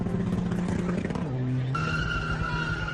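Cars revving and skidding at a night street meet of drifting with about 200 cars in an industrial estate: a continuous loud, rough engine roar with shifting pitch, then a high steady squeal over it.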